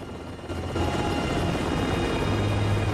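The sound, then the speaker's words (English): A helicopter lifting off gives a rough, steady roar of rotor and engine that grows louder after the first half-second and then holds strongly to the end. “The refugees watch as the chopper lifts off.”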